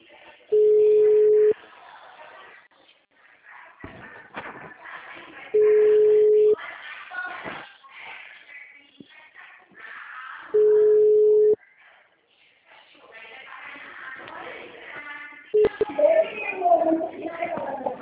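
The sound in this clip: Phone ringback tones while redialing a dropped call: three steady, even tones roughly five seconds apart, with a person talking between them and a burst of noisy line sound near the end.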